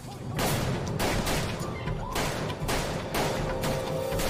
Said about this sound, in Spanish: Cuatro hombres se detienen y abren fuego contra Changlini y la camarera